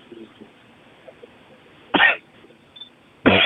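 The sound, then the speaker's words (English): Harsh coughing from a caller during a phone call: two loud, abrupt bursts over a quiet, faintly noisy line, with the second cough cut off at the end. “You better cough.”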